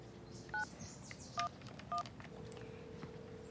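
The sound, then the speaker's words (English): Three short, clear keypad tones sound as a telephone is dialed to call the police on 911. The presses are evenly spaced over a quiet, low background hum, with no talking. “if you want to call the police, you have to dial 911. He dials.”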